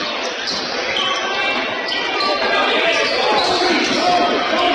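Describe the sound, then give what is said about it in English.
A basketball is dribbled on a court during a game, its bounces set against a steady wash of crowd noise. “Keeping a dribble out of that top is Watson.”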